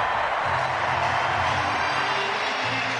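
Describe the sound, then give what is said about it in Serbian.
A stadium crowd at the London 2012 Olympic opening ceremony applauds and cheers as the athletes are welcomed, making a thick, continuous roar of many voices and hands that stays steady throughout. “Još jedan aplauz za olimpijske igre u Londonu.”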